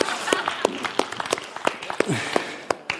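Applause for a volunteer from the audience comes as scattered, irregular claps from a handful of people, each crack distinct and moderately loud, with gaps between bursts.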